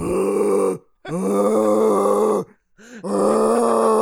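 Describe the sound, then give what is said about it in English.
A man's voice imitates a black bear's growl, inhaling and pushing from the chest. He makes three long, low, gravelly growls, loud and rough, with brief silent pauses between them. “I call it black bear noises. Let's see if I can do it without destroying the mic. It's like this.”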